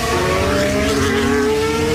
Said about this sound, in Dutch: Hij pakt de snelste raceronde, logisch, in de slipstream.